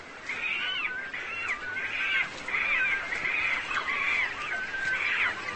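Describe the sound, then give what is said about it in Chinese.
Cormorants squabble noisily over nesting sites in the spring breeding season. They give many harsh, nasal, cawing calls in a steady repeating rhythm. “他们争夺着最好的筑巢地点，声音喧闹。”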